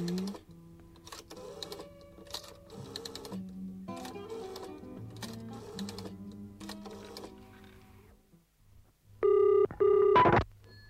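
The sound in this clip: A telephone rings in two loud, buzzy bursts near the end, each under a second long with a short gap between. Quieter tonal notes play before the rings.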